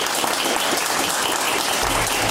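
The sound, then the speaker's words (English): Audience applause following a guest introduction on a talk programme. It is dense and continuous clapping at a steady level throughout, with no voices. “a big round of applause, please, for Anna Helvig.”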